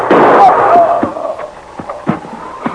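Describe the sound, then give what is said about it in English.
A rifle gunshot: one loud, sharp blast at the start that rings on and decays, followed by a few faint knocks. “Look out, he's gonna shoot! Get him!”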